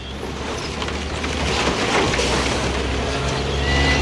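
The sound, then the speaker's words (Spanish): A wrecked truck with a destroyed rear container is dragged along a highway, making a continuous broad grinding rumble with noisy scraping that grows louder partway through and holds steady to the end. “Ahí se está escuchando cómo se mueve, cómo se arrastra este camión.”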